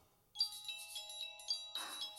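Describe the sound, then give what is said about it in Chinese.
A telephone rings with an incoming call, sounding a quiet electronic ringtone that plays a bright, repeating melodic pattern of chiming tones after a brief silence. “来电话了。”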